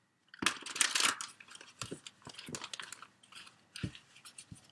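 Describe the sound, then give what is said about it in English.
Crisp rustling and snapping of tarot cards being shuffled and drawn for a Celtic cross spread: a quick, dense flurry of flicks, then scattered softer taps and slides, all faint with no voices. “Let me get the cards drawn for a Celtic cross spread for Aries, beautiful fire sign.”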